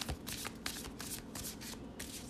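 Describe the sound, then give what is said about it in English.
Tarot cards are shuffled by hand before one is drawn. The quiet, soft riffling comes in a quick run of papery bursts. “Let me pull one more card on this to see if I can get something clearer than that.”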